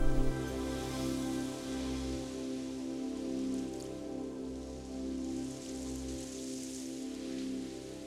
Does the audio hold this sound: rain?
yes